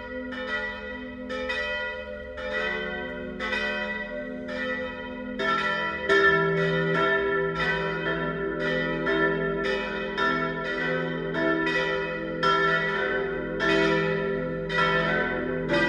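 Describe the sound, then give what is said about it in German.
Church bells of a parish and pilgrimage church in Biberbach, Bavarian Swabia, ringing at noon: several bells peal together in a dense, continuous pattern of overlapping strikes, steady in loudness throughout, with no voices. “Das Mittagsläuten kommt heute von der Pfarr- und Wallfahrtskirche St. Jakobus, St. Laurentius und Heiliges Kreuz im bayerisch-schwäbischen Biberbach.”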